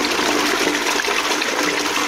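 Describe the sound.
A toilet flushes with a steady, loud rush of water that holds at an even level throughout, with no talk.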